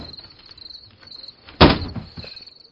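A door being opened, heard as one brief, loud burst that stands out against a faint, steady, high-pitched chirping background.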